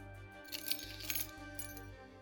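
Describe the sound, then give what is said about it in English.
Metal keys jangling as the key to a room is handed over, faint clinks in a few short bursts over a low steady hum. “Yes. The key to the Grey Room, if you please.”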